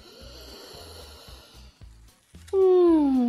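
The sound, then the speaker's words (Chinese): Deep breathing after smelling freshly baked golden crispy cakes: a long airy inhale over a steady low rhythmic background, then a loud voiced sigh whose pitch drops as it fades. “哇，金黄金黄的，好香啊！ 深呼吸，深呼吸。”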